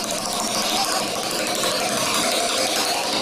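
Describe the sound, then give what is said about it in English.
A prize wheel spins with a dense, rapid run of ratcheting clicks that stays steady and loud throughout, with no voices. “First, it's time to spin the shout-out wheel”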